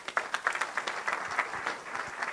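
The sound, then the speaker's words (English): A church audience applauds as a man in a recovery program comes up to share his testimony, a light, steady patter of clapping that stays fairly faint. “So let's give him a warm round of applause.”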